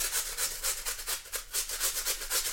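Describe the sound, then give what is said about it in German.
Peeled, washed potatoes scraped against a coarse grater, a steady run of quick, rhythmic rasping strokes, evenly paced and fairly loud, with no voices. “jetzt habe ich die Kartoffeln geschält und gewaschen. Und jetzt nehme ich die grobe Reibe und reibe sie.”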